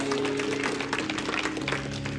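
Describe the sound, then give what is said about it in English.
An audience applauds the Lord at a church service with a short, dense wash of clapping. A steady low tone sounds faintly underneath. “Give the Lord a big hand of praise.”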